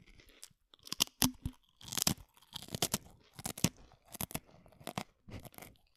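Crunchy chewing of deep-fried monster skin, not fried long enough: many loud, irregular crackling bites and chomps with short pauses between them, and no voices.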